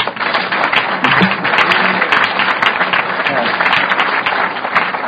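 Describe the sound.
Audience applause at a talk about alcoholism and long-term sobriety, rising right after a speaker's sober date is mentioned. Dense, steady clapping stays loud for several seconds without breaks.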